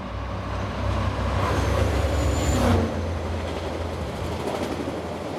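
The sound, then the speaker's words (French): Steady rolling rumble of the SNCF gas-turbine prototype trainset from 1972, a broad continuous low roar that swells slightly near the end before easing back to a constant drone, with no voices. “Le 1er décembre 1972, la SNCF lance son prototype de rame à turbine à gaz, le RTG 01.”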